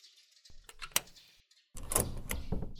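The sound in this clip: A door is being opened: a few faint, light clicks and rattles come first, then after a brief pause a louder, sustained scraping swish.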